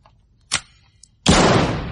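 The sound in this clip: A paintball gun fires at a board held up as a target: a sharp pop, a faint tick, then a louder burst of noise that dies away over a moment.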